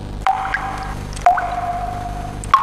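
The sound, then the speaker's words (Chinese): Excess water and fertilizer solution dripping from felt under raised strawberry beds: three separate drops, each a short plink with a rising pitch, over a steady low background. “每次浇水后，多余的水肥会从高架底部的毛毡上一滴一滴地渗下来，流进了高架下方空余的土地里。”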